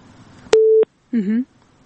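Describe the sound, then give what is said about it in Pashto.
A phone call during a doctor's consultation cuts off, leaving a single steady, mid-pitched beep tone on the line, followed by a short, wavering tone with a buzzy edge. “ښه، دلته چې دوی اړیکه پرې شوه”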